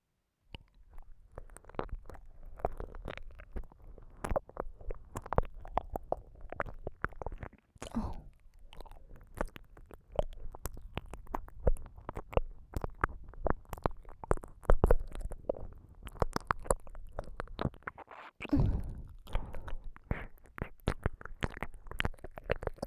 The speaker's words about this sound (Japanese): 私の耳舐めうまいでしょ。まるで触手のように舌を動かすのがコツなんだ。